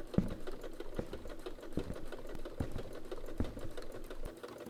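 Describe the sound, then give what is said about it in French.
Sewing of a warm winter jacket: irregular clicks and sharp taps recur over a low, rumbling mechanical hum, steady and fairly quiet throughout, with no voices. “Il voit sa femme, en train de coudre une veste chaude pour l'hiver qui s'annonce.”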